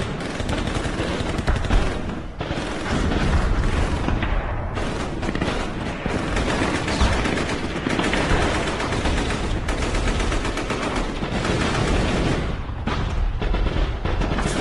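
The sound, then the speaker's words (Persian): Heavy gunfire and explosions fill a war drama battle scene near a sandbagged trench: dense, continuous crackling shots and rapid bursts overlap with deep booms, loud and unbroken throughout, with no voices. “شلیک ها شروع می شود.”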